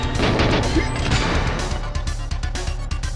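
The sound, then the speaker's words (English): Gunfire in a video game while the player hunts for a satellite, as dense, rapid bursts of shots pile into a loud, continuous clatter that holds steady throughout. “It still doesn't say mission complete, and people are shooting at me.”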